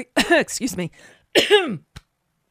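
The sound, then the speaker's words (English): Someone clears their throat in a few rough, voiced bursts, each a raspy push of the voice. A small click ends the sequence. “it's just saying Prime Minister Boris Johnson that caused my throat to close up.”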